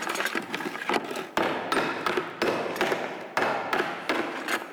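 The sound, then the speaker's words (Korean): Repeated hammer blows on a Korean gong being tuned. Each strike is a sharp metallic hit with a ringing shimmer that carries into the next, in a steady series of many blows. “소리를 계속 쳐가면서 내가 원하는 소리를 이렇게 찾아나가는 거거든요. 망치질을 해가면서 이제 그 떨림을 조정해가지고서 우리가 이제 고유 징소리를”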